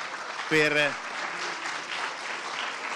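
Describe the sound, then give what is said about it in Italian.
Audience applause at a documentary film screening: a dense, even patter of many hands clapping, with a brief voice sounding near the start. “Credo che adesso più che mai bisognerebbe fare un applauso per quello prima di vederlo,”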